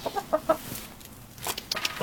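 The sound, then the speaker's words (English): Chickens clucking outside, hens kept for eggs and fed corn scratch: a few short, throaty clucks at varied pitch, followed by some scratchier bursts near the end. The calls are fairly quiet, with no talking. “as we come outside, one of the first things you notice is some chickens clucking. So we can say hi to the girls.”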